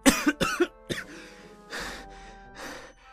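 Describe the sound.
A man coughs several times in quick, harsh bursts, then keeps breathing heavily and unevenly, short of breath after a run outside a hospital.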